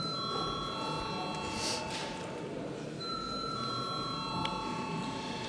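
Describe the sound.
An electric bell rung in a parliament chamber to call a vote: a steady, ringing tone that breaks off briefly midway and then resumes, over murmuring voices in the background.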